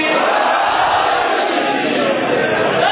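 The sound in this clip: A large crowd roars the slogan Naara-e-Haidari together, a loud, unbroken wall of many voices held at full strength from start to finish.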